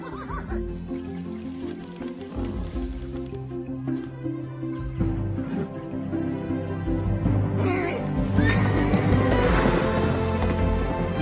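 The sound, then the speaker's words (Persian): A wild horse being schooled in manners neighs with wavering whinnies over a continuous, dense low background that grows louder toward the end. “ببینم امروز میتونه به این اسب وحشی یه ذره ادب یاد بدی یا نه.”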